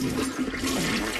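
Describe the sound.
Toilet flush: a steady, loud rush of swirling water with a broad hiss, continuous throughout the short clip.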